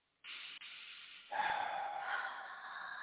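A deep inhaled breath: a long, steady, airy hiss with a brief break early on, then a swell that holds to the end. No talk over it.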